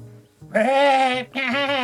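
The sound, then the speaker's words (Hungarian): Sheep bleating: two drawn-out, wavering bleats, the first longer than the second and separated by a short gap, loud and clear with no other sounds. “megszólalt birkául. Azaz, ahogy az előkelőbbek mondják, juhul.”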